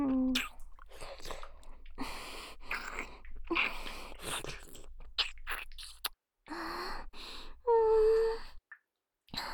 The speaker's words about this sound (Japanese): 大好きだから、ほら、またチュー。